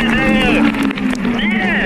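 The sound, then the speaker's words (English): A Honda-powered IndyCar race car crosses the finish line at the St. Petersburg street-circuit Grand Prix, a loud, continuous engine drone with a steady low tone and high whining harmonics that bend in pitch as it passes. “Well, that was the sound of Sweden's Marcus Ericsson passing the checkered flag in first place at IndyCar's opening Grand Prix of the season in St. Petersburg,”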